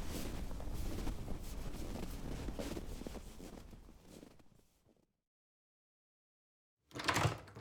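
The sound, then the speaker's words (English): Cold wind blows outside in a rough, rumbling roar that gradually fades away into silence, followed by a short, loud burst of noise at the end. “Holy God, it is so good to get in out of that wind.”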